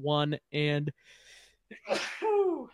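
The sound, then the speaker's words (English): A person sneezes once with a sharp, noisy burst after a few seconds of brief voiced talk, followed by a short tonal exhale. “One and sneeze. One and sneeze.”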